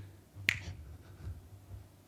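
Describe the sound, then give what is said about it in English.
A single sharp finger snap, like snapping at a waitress for attention, sounds once, faint and crisp over a low background hum. “Snapping your fingers at a waitress.”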